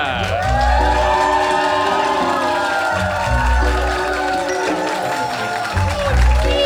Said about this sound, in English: Ladies and gentlemen and others, please put your hands together and welcome to the stage, Madam Magenta!